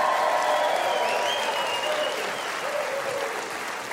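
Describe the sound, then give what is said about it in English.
Studio audience applause for a music group on a TV show, a dense, steady wash of clapping that stays loud and even for about four seconds with no break. “A big hand for Trey Corley and the Music City Connection.”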